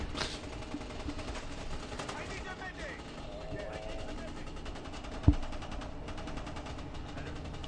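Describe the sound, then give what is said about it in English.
Gunfire from a shooting video game, a dense stream of rapid shots and clatter running throughout under talk, with one sharper, louder shot standing out in the later part. “Is that somebody to shoot? Spreading bullets.”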